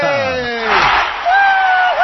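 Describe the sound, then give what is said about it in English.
A poetry slam arena crowd cheers in a short, loud burst of whoops and shouts that swells briefly and then trails into higher calls. “Oh, it's the Poetry Slam Arena crowd.”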